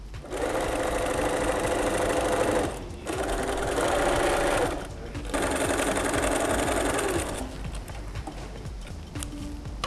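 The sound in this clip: A sewing machine stitching canvas or cotton fabric in three fast mechanical runs separated by brief pauses, a steady rapid clatter with a faint whine, quieter at the end.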